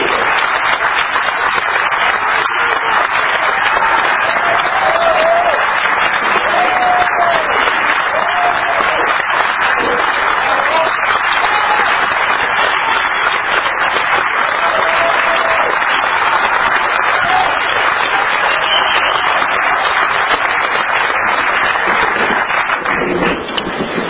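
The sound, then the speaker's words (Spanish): Loud, sustained applause from a crowd welcoming judge Baltasar Garzón at a live event in Argentina, a dense, even roar of clapping that holds steady for the whole stretch. “Un gran aplauso, nuestra bienvenida, nuestro cariño, nuestro amor”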